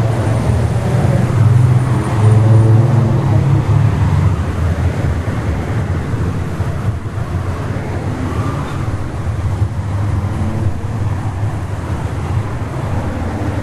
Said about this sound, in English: there's the wind, right?